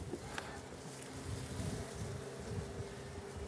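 Honeybees in a colony hum and buzz during a spring hive inspection. The buzzing is a faint, dense, continuous drone that holds steady for the whole stretch, with no talk over it.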